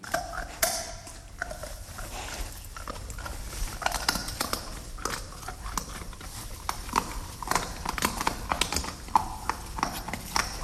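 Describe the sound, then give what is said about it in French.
A wild boar eating acorns: a dense, continuous run of crisp cracking and crunchy chewing, fairly loud and irregular throughout with no pauses. “C'est un sanglier qui mange des glands.”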